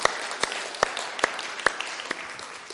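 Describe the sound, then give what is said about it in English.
An audience at a church service applauds after a children's song, an even patter of clapping with a few sharper, louder claps standing out. “Give you a round of applause, everyone.”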